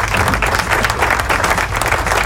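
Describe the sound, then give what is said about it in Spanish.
Steady applause fills a rock studio, dense overlapping hand claps at an even, loud level throughout, with no clear voices on top. “vamos a darle un aplauso”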